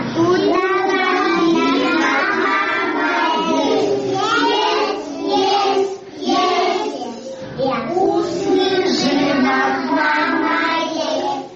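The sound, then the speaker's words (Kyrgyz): Young children of a middle age group at a private kindergarten in Bishkek sing a song together, their bright voices continuous and loud, with brief pauses between phrases. “Сиздер бакчанын ортоңку тайпасындагы тарбиялануучулардын ырын угуп жатасыздар.”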